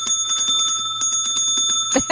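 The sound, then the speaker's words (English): A struck bell rings with a sustained, bright metallic tone while many quick strikes land on it in a fast, uneven rhythm, ending with a louder clatter. “What are you hitting that bell with? Not my hands.”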